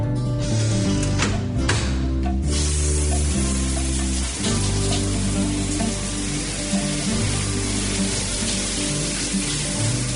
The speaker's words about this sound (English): Mom, the shower's cold.